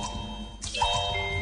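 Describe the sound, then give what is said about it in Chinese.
A water droplet falls with a single soft, hollow plop over a faint, steady background. “这是水滴的声音，”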